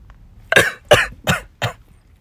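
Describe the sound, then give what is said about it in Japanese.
Four sharp, loud coughs from a person who has choked on a sip of bitter coffee, evenly spaced and alone, with no talking. “しっかりね、むせていきますけども。”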